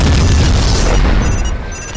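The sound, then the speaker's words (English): Artillery shells exploding near a tank in a video game make a loud, deep booming blast that rumbles heavily, then tapers off toward the end. “The artillery is shooting at me.”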